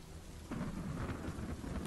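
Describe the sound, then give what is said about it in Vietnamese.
Rain with thunder gives a dense, steady hiss of rainfall, and a low rolling rumble swells in after a moment. The whole is fairly quiet and unbroken, with no voices. “Trên trời cơn mưa không những không chịu ngớt đi,”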